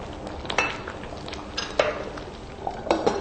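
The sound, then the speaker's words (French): Peanut sauce cooking in a pot after the peanut paste has been stirred until crumbly. A soft, continuous sizzling bed is broken by a few light clinks of a utensil against the pot. “jusqu'à ce que la pâte d'arachide soit assez émiettée. Maintenant, laissez un peu cuire pendant quelques instants.”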